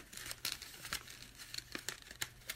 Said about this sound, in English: I'm just gonna keep folding.